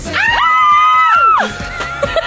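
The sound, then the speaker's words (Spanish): A loud fan scream from people in a studio: one long, high-pitched cry held for about a second that then slides down, followed by quieter voices. “Y gritemos fuerte, además. Dale, dale, fuerte.”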